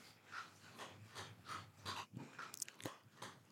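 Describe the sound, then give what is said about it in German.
Crunching and chewing from a dog eating dry kibble piece by piece: many quick, crisp crunches in a steady, regular rhythm with soft snorts between them, moderately loud and with no talk. “unser Hund frisst gerade. Er frisst gerade einen Trockenfutter, jetzt geht er wieder zurück, holt sich wieder was, Stück für Stück.”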